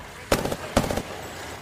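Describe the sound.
Gunfire in the video game Apex Legends: two short bursts of rapid, sharp shots, each lasting roughly a quarter second, separated by a brief gap and followed by quiet.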